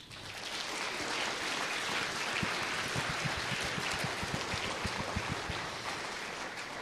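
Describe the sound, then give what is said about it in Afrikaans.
Congregation clapping their hands in thanks to the Lord during a church service: a dense, steady wash of many hands clapping together, continuous through the whole stretch with no voices standing out. “kom ons sê vir die Here dankie met 'n handeklap.”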